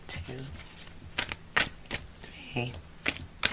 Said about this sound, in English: I'm going to shuffle these cards 4 times.